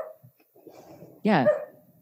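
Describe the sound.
Dog barking: after faint, low murmuring, a single loud, tonal bark bursts out and trails off briefly.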